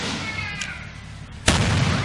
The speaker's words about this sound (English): Some like to ring in the new year by shooting off fireworks in the backyard. But the Dallas Police Department says, leave the fireworks to the professionals. Not like the people captured in this YouTube mishap.